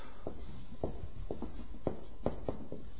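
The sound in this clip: Scratchy strokes of writing on a board come in a quick, irregular run of short marks. The strokes are fairly faint and there is no talk.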